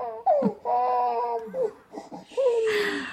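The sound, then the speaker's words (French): A baby cries and fusses in a few wavering, whimpering wails. Some wails rise and some fall, with short breathy pauses between them, at moderate loudness. “Je t'ai réveillé, mon trésor ? Ne pleure pas, maman est là.”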